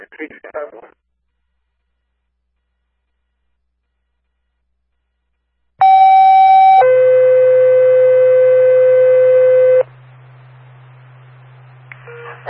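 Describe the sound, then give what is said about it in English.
Fire department dispatch test tones for the Ashaway, Carolina and Hope Valley Fire Department: a sequential two-tone page, a short steady higher tone followed by a longer, lower steady tone, loud and alone, with brief radio audio before and after. “on the air, test and tones for the Ashway, Carolina, and Hope Valley Fire Department.”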